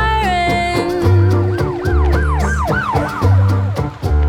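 Wailing emergency vehicle sirens sweep up and down in repeated rising-and-falling arcs, layered over music with a heavy thumping bass beat.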